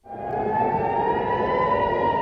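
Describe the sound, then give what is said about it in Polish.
Air raid warning siren sounding at night in Tel Aviv during rocket fire: one loud, steady wailing tone that rises quickly into a sustained, constant-pitched drone lasting the whole clip. “Syreny alarmowe po raz kolejny odezwały się w nocy w Tel Awiwie.”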